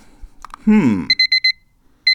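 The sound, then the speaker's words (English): An alarm clock rings with a rapid run of high, bright electronic beeps, then a short pause before another burst begins. “there's the alarm. What is that alarm telling me?”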